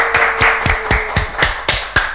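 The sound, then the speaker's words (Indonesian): Applause for an upcoming dance performance arrives as about eight sharp, evenly spaced claps in a steady rhythm, loud and with no voices. “Oke, beri tepuk tangan yang meriah dong.”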